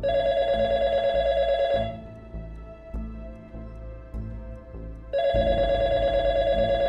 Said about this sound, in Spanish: A punto de irse a la cama recibe una llamada.